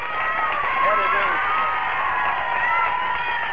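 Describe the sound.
A large beach crowd at Scarborough Beach in Perth cheers and applauds in welcome, a loud, dense, continuous roar with whoops and clapping throughout.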